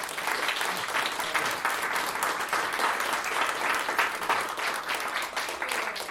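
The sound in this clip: An audience claps steadily to welcome two speakers at an evening book talk. The applause is dense and continuous and holds at an even level throughout.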